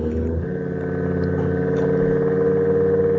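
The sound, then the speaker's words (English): A motor runs with a steady droning hum rich in tonal overtones, holding an even pitch and growing slightly louder over the few seconds. “Oh, wait, is there a new noise? Oh, wait, here comes the motor noise again.”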